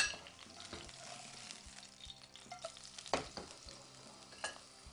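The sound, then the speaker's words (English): Tuna sears in hot oil in a pan, giving a steady crackling sizzle broken by scattered sharp pops of spitting oil. “If it's popping too much, just get your pan tilted forward right there. All that excess oil goes down there and it won't pop anymore on you. It'll still keep searing.”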